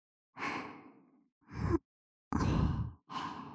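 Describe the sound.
Air is gently blown into an ear in four soft, breathy puffs with short pauses between them, with no talk.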